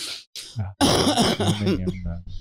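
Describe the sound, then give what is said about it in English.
A wet cough from a long-time smoker, with loud, rough, throaty bursts running close together and a harsh, phlegmy quality. “Coughing is suspect. Yeah, well, you know. It was a wet one.”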